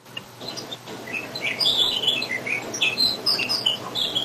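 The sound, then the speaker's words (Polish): Birds chirp in a garden in the evening, giving many short, high-pitched tweets scattered irregularly over a faint, steady background hiss, with no voices. “ja słyszę ptactwo w twoim ogrodzie. Pozwólmy im zaistnieć.”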